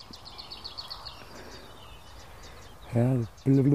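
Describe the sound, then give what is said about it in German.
A lesser whitethroat calling from bushes: a quick, faint series of dry repeated rattling notes at the start, then softer chirps, and two short, loud voice-like bursts near the end. “Unten aus dem Gebüsch ist die kleinste Grasmücke, die wir haben. Und da sie klappert, nennen wir sie doch einfach Klappergrasmücke.”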